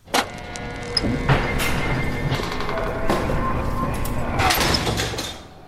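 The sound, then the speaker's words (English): A heavy steel prison door at San Quentin slams. Several sharp metallic clanks ring over a loud, continuous rolling mechanical rumble that stops abruptly at the end. “That's the sound of the San Quentin prison door slamming as my guest Earlon Woods”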